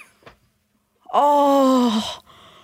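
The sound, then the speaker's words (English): A person imitates sex moaning: one long, drawn-out voiced moan lasting about a second. It rises quickly at the start, then holds and sags slightly before cutting off. A brief faint sound comes before it. “And then in her ears is us making sex noise.”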